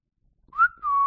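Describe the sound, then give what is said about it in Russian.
A man whistles a short two-part tune: a clear note that slides upward and dips, then a brief pause and a steady, sustained whistle at a similar pitch, heard alone with no talk. “Свистнул опять рыцарь Кинфанс.”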